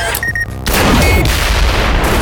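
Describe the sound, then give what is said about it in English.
A concentrated blaster blast blows a hole in a reinforced jet door, a sudden loud, broad roaring burst that erupts after a short tonal whine and keeps rumbling at full strength to the end. “The door splintered inward as the blast obliterated a small portion of the jet.”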